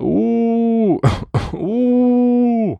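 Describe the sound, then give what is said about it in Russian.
A human voice imitating a creaky, wailing howl: a long sustained tone, then two short noisy, breathy bursts, then another long steady howl that dips slightly in pitch at the end. “тихо откашлялась и скрипуче провыла.”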